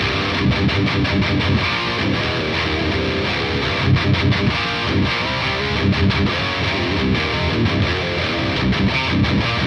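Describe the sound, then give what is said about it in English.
Guitar amp chugging with heavy distortion: a dense, gritty wall of tightly rhythmic palm-muted chugs that runs continuously and loud for about ten seconds. “This amp has a very, very pleasant chug.”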